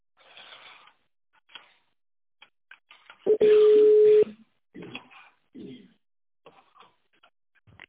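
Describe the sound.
A telephone ringing tone plays on a company's phone line while the call is transferred: one steady, mid-pitched tone lasting about a second. It sits between stretches of a recorded voice message.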